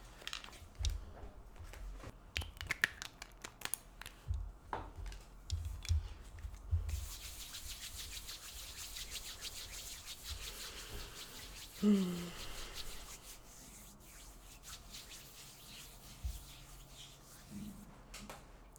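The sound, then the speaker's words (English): Palms rubbed together after a drop or two of essential oil is poured into them, a soft, continuous swishing friction with a few louder brushing strokes early on, then a steady, even rubbing texture. “pour a drop or two of your chosen essential oil into your palms, and then just gently rub your palms”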